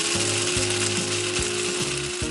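A coffee machine whirs steadily with a grinding mechanical texture, marked by regular ratcheting clicks that repeat about every half second under a constant hum.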